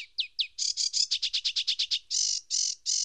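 Bird song rings out as a rapid run of bright, high chirped notes, then a quick string of descending trills, ending in a few longer, buzzier sustained phrases, loud and clear over near silence.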